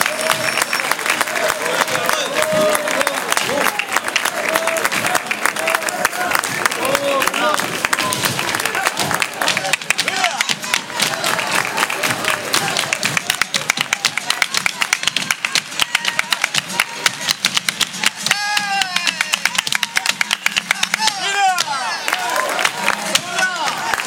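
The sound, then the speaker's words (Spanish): Loud, dense applause from a live audience at a flamenco club evening in Manilva, continuing steadily without a break for the whole stretch. “Ese fortísimo aplauso.”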